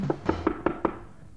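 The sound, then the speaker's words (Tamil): Knocking on a door: five evenly spaced, sharp knocks at a moderate volume, followed by a brief quiet. “யாரோ கதவு தட்டுறாங்களே.”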